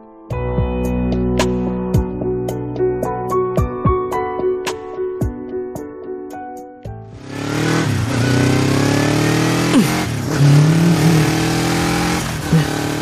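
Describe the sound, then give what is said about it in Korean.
A motorcycle riding along an unpaved road with no other traffic, its engine droning loud and steady through the second half after a stretch of plucked music. “오토바이에 오른 지호는 차가 없는 비포장 도로를 달렸다.”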